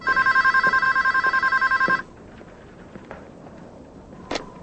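A telephone bell rings in a fast, continuous trill for about two seconds, then stops abruptly. Quiet follows, with only faint scattered noises.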